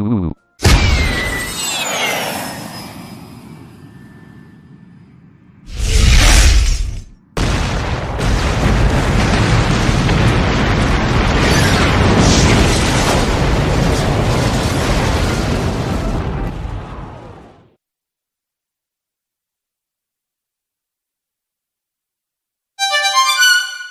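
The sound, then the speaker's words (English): A missile launch and explosion in a video game: a sweeping whistle, then a sharp burst, then a long, loud roar that ends abruptly in silence. A brief rapid clicking follows. “so we will launch a missile and see what happens next. Luana, no, stop, please. Young man, fire.”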